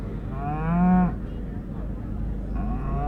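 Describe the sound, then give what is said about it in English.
A Simmental beef cow, shown with her calf at a cattle show, gives one long, deep moo over a steady background rumble. A fainter second lowing follows near the end. “Oh, she's a beauty, the Simmental from the Huxham family at Ballymore there in Balaff.”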